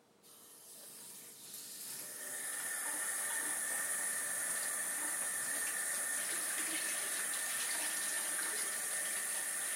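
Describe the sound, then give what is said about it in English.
Water gushing fast from a sink tap with a broken filter, spraying and splattering. A steady, loud hiss builds over the first two seconds and then holds constant. “Now the water comes out really fast and sprays.”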